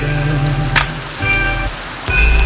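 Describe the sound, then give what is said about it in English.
Heavy water pours down like torrential rain onto a person standing beneath it, a dense, steady hiss that carries on without break and swells slightly louder near the end. “He backs up slowly until he's submersed in the downpour that resembles torrential rain.”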